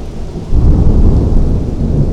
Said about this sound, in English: And we got thunder clipping the audio.